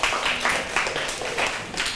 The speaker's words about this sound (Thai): ปรบมือให้กลุ่มที่4หน่อยค่ะ